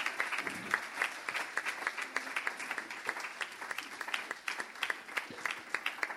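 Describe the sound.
An audience gives a steady, dense round of applause to welcome a speaker coming up to the stage. The clapping is fairly faint and keeps an even, crackling texture with no voices standing out.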